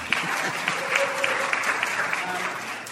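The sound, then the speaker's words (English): A live audience at Temple Israel applauds in a steady, dense burst of clapping, with a few sharper claps standing out from the even roar. “We're recording this here at Temple Israel before a vast audience. Let them know you're here, by the way.”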